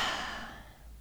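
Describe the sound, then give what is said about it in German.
A deep breath during a guided relaxation, heard as a single soft, breathy exhale that starts fairly full and fades away over about a second. “Atme tief durch.”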